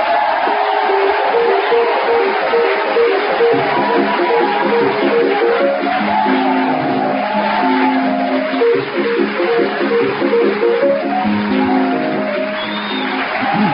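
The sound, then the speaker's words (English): Chopin's Minute Waltz plays as theme music, a rapid, continuous piano melody of quick running notes that holds a steady level through the stretch. “as the Minute Waltz fades away”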